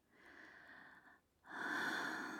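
Slow, soft human breathing in two long, drawn breaths: a steady airy breath, a brief quiet pause, then a second fuller and louder breath, with no talking.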